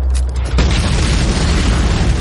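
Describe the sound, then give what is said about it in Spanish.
An explosive charge is set off by a detonator in a World War II battle scene: a loud, deep boom breaks in after a brief lead-in, then sustains as a heavy low rumble to the end. “El artificiero termina de conectar los cables. Los alemanes pasan junto al explosivo. El artificiero acciona el detonador.”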